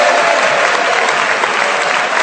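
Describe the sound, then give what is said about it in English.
Audience applause for the joint winners at the close of a panel game: loud, dense clapping that holds steady throughout with no break. “A round of applause.”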